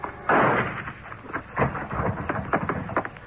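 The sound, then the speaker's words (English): Gunshots ring out from a low barn-like building at the rear of a property: a heavy bang early on, another later, then a quicker run of sharp, lighter shots toward the end. “The shots came from a low barn-like building at the rear of the property, and I wasted no time getting over there to see if Pedro's prophecy had already been fulfilled.”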